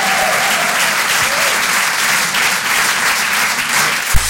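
Audience applause at a live comedy and music show: dense, steady clapping with no break across the whole clip, loud and even.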